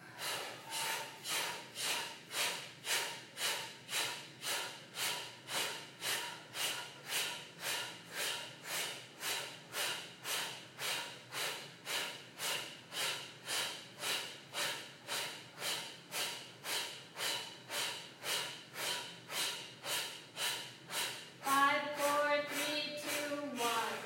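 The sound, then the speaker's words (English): Kapalabhati breath of fire in a yoga practice, a long run of many rapid, forceful nasal exhalations in a steady even rhythm, each a short puff of air, with a voice coming in at the end. “Kapalabhati, breath of fire. Inhale, breathe in. And let's exhale and go for it.”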